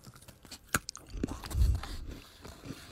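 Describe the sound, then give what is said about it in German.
Someone bites into a crisp, freshly baked cookie. There is one sharp crunch, then a stretch of quieter grinding and crunching as it is chewed. The sounds are faint and close, with no talking. “sind die Plätzchen denn jetzt zumindest irgendwie so weit abgekühlt, dass man mal reinbeißen kann? Warte, ich probier's mal.”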